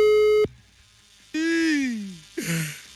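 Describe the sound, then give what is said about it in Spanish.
A telephone line tone while a call is being dialed: a steady, even single-pitched tone that cuts off abruptly after about half a second, followed by voice-like sounds with a falling pitch. “aquí está ya el número. Vamos a marcar en este preciso momento.”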